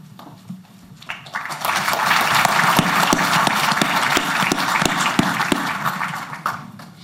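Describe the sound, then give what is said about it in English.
A crowd applauds to welcome a new New York Jets player at his introduction, a brief quieter moment first, then dense, sustained clapping that holds steady for several seconds before easing off at the end. “I'd just like to have a round of applause right there.”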